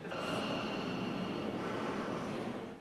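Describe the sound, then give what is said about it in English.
Sleeping horse snoring: a steady, breathy, rasping exhale holds at an even level for nearly three seconds, with no talk over it. “you'll hear in the background the sound of snoring, which is actually the sound of her horse that she has now snoring. This is the sound of the sleeping horse.”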